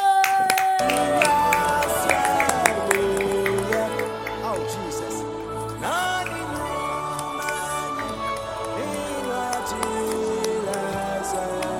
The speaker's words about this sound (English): Somebody, you can clap, my God.